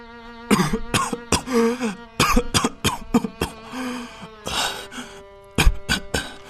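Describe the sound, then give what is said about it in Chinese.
A sick man coughs in a series of harsh, raspy bursts, with a throat-clearing sound among them, over sustained musical tones. “我昨晚听你咳了一夜。”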